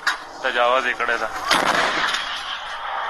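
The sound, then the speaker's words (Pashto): Locally made cannons fire in Kunar toward the Pakistani side. A sharp, loud blast comes near the middle, set among rumbling noise and people talking. “په دې ویډیو کې ښودل کیږي چې ګنې په کونړ کې د طالبانو ځواکونه پر پاکستاني لوري د دیسي توپونو ډزې کوي”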